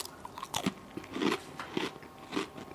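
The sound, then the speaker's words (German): A butter speculoos biscuit is bitten and chewed, giving a few crisp crunching bursts at a fairly even pace, quiet, with no speech. “will ich mal aus wissenschaftlichen Gründen probieren, ob der Glöck auch mit Butterspekulatius schmeckt.”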